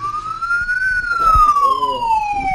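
An ambulance siren wails in an ambulance simulator, a single loud tone sweeping upward, then gliding slowly down, over a low rumble.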